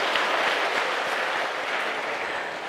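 Audience applause at a Buddhist monk's lecture, welcoming a student's answer: a steady, even wash of many hands clapping that holds at the same level throughout, without voices.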